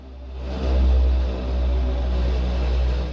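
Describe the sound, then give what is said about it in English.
A motorbike engine starts up and drives off across a rooftop, a steady low revving rumble that swells after the first half second and holds strong to the end. “They stare in amazement as the bike starts itself up and drives itself off over the side of the building.”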